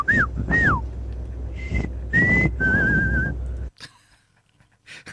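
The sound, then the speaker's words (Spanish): A whistled reply in Silbo Gomero, the whistled language, made of several distinct whistled phrases: the first two curve and fall, the later ones hold steadier, higher tones, over a low rumble, ending with a few faint clicks. “¿el silbido es en español o en gallego?”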